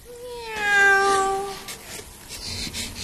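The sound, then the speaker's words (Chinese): A single cat meow, clear and tonal with a slightly bending pitch, lasting about a second. Faint shuffling noise follows after it fades. “喵，一只猫就把你们吓成了这样。”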